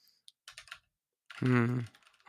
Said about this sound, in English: this clickety keyboard that I bought has been a huge help for me paying attention, because if I'm typing, right, if I sit here and I go,